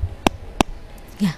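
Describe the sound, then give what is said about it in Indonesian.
Two sharp clicks as a phone line cuts off during a radio call-in, separated by quiet line hiss, with a short low tone rising at the very end. “Ya. Terputus ya. Sayang sekali ya sahabat budaya, bisa dicoba kembali.”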